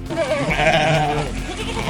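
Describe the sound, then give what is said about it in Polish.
Sheep bleat from a flock of about 300 driven through the crowded streets of Zakopane in a traditional sheep drive; a wavering, nasal bleat rises clearly above a low, continuous murmur of the crowd. “Tłumy turystów i setki owiec na ulicach Zakopanego.”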